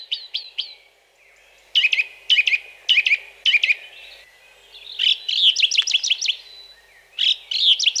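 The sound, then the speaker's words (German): A song thrush sings with loud, clear high chirping notes grouped into short phrases, each phrase repeated several times in quick succession with brief pauses between groups, and no other sounds. “Die Singdrossel findet alles, was sie singt, so wichtig, dass sie es gleich mehrmals wiederholt.”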